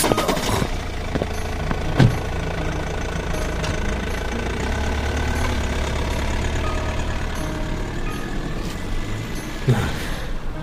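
A vehicle engine runs steadily as people drive away, a low continuous rumble with a broad mechanical hum throughout. Two brief sharp knocks punctuate it, one early and one near the end.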